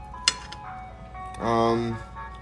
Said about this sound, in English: Ice Cream Man, yeah, they're out here. They're out here.